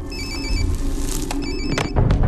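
A telephone rings in two trilling bursts over a loud, rumbling background noise, with no voices.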